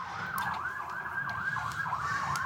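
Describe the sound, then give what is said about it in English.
An emergency vehicle siren outside, a fairly faint wailing tone that rises and falls in quick repeated cycles over a low steady rumble. “Maybe let's wait till the siren is...”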